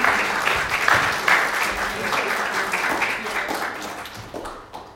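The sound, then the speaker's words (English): Audience applause for a storyteller at a church Sunday service: steady clapping from many hands that gradually thins and fades toward the end. “Give her a hand.”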